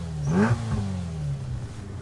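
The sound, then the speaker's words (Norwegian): A Ferrari sports car engine revs on a bridge, surging sharply in pitch once and then easing back into a steady, droning idle. “vi sitter I en Ferrari. Vi står på Vingnesbrua.”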